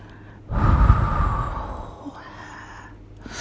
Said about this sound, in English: Is my breath nice and warm?